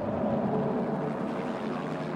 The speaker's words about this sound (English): A convoy of four helicopters flies toward the mountain.